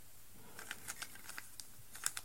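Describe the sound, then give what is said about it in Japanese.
Rubik's cube being twisted, making a quick, irregular run of many light, sharp plastic clicks, quiet and alone with no talk. “今、ルービックキューブいじりくりながら喋ってたら”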